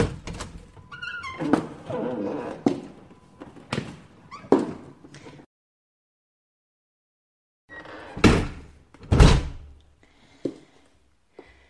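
A door opens and slams shut as someone comes home, with a few knocks and clatters first, then a stretch of silence, followed by two loud, heavy bangs and some fainter rattling.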